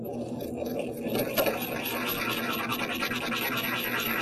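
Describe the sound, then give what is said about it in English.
A roughly ground powdered sample is ground further with a mortar and pestle, giving a continuous, steady scratchy grinding that holds an even level without pause. “This has already been roughly ground. I'm going to grind it just a little bit more using a mortar and pestle.”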